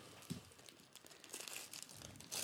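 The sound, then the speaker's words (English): Wrapping paper crinkles faintly as a gift is opened during a holiday gift exchange. The paper gives off soft, irregular rustles and crunches in uneven bursts, with no voices. “No, that's just the wrapping paper.”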